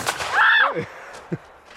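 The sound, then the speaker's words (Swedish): A gunshot from a shotgun fired by a first-time shooter. One brief sharp crack is followed by a loud, rising and falling vocal shout, then a small click. “och det ryker i geväret”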